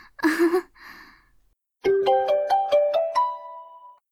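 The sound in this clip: A mobile phone ringtone for an incoming call from a friend plays a quick series of bright electronic notes climbing in pitch, with the last tone held, after a short breathy sound.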